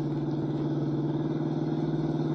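Car engine drones steadily during a chase as the driver speeds up in a newer-model car, a constant low hum with rich harmonics and no pauses or clear pitch changes.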